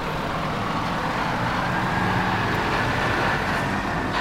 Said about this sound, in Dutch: Ik kom nu een Scania langs